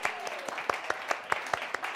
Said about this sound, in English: Let's go ahead and give that a clap.